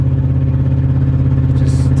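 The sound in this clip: A car engine drones steadily while the car is driven fast, a loud, constant low rumble with a slight pulsing texture that holds without break for two seconds.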